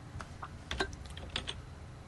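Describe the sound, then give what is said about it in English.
An address is typed on a computer keyboard as a short, quiet patter of a few separate keystrokes with no voices. “Oh, I see. I have to type in my address.”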